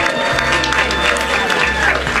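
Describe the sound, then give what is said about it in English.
A live audience at an event on an art and design college campus claps and cheers, giving a loud, continuous crowd roar with a few swelling bursts throughout. “We are live from the campus of Minneapolis College of Art and Design. This is Project Down and Dirty. Let's hear it out there, live audience.”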